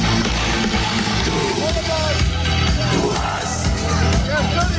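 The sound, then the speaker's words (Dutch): Open-air rock concert by a German band in a Nijmegen park before a crowd of about 60,000: a dense, constant, loud wash of amplified music and crowd roar, with shouts mixed in. “gisteravond in het Nijmeegse Goffertpark traden wat Duitse kerels met wat onfrisse hoofden en scheurende gitaar op. Klonk zo.”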